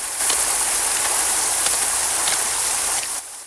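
Heavy rain pouring down by a muddy cliff wall, a dense, steady hiss that never lets up and drops slightly in level just before the end.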